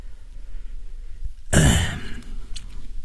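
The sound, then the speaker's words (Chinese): A single soft cough or throat-clear from a Buddhist master beside a butter lamp: one brief, breathy burst midway through, standing out from a quiet, low background. “轻轻地咳了一声说”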